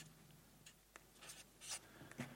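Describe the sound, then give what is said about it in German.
Handwriting with a pen: faint, scratchy strokes and brief taps of the tip on paper in an uneven rhythm, with no speech. “Habe ich dir auch, schreibe ich noch her.”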